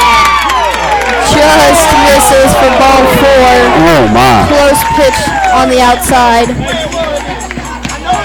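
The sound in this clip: A parent shouts from the stands at a baseball game, a raised voice carrying amid crowd cheering and excited shouts. An announcer calls the pitch over the top, and the noise stays loud throughout.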